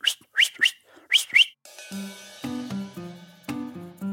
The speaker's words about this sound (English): a stop whistle is just a straight stop note. A run whistle is just a...